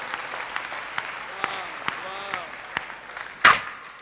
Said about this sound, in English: And are you clapping your hands for the Lord?